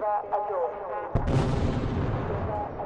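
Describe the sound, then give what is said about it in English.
Rockets launched from Gaza and intercepted by the Iron Dome missile defense system in the sky before dawn. After voices, a sudden sharp blast gives way to a loud, sustained rumbling roar. “rockets from Gaza launched and intercepted by Israel's Iron Dome in the sky”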